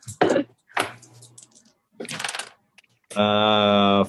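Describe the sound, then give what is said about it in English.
Percentile dice rolled during a tabletop role-playing game, heard as a few short clattering bursts separated by brief gaps, followed by a steady, bright tonal sound. “roll percentile dice.”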